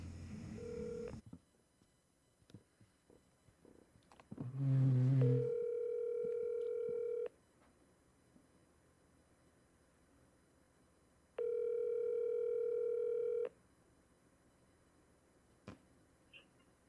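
Telephone tones while a call is being placed: a few quick dialing beeps and clicks, then two long, steady ringing tones separated by a long pause, faint throughout.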